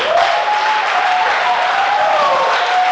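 Applause from a church audience praising God, a dense, loud, steady clatter of many hands that continues without a break from start to finish.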